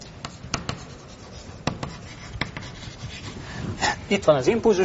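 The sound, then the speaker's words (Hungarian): Handwriting scratches in quick, uneven strokes as a lecturer writes into the next block of a diagram. Sharp scrapes come with short pauses between them, and a voice is heard faintly near the end. “és akkor ide a következő blokkba csak annyit írok, hogy itt van az impulzustétel”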